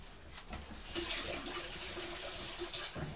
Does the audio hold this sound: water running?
yes

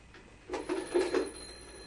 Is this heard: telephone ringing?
yes

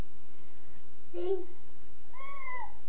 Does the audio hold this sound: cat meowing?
yes

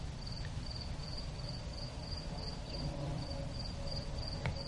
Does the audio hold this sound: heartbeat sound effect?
no

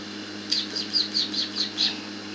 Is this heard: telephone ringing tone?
no

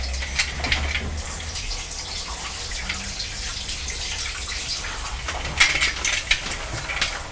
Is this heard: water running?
yes

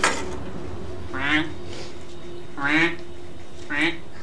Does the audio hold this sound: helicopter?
no

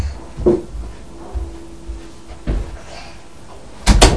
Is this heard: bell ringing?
no

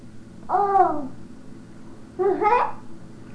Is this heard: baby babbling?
yes

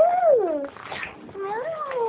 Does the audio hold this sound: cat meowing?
yes

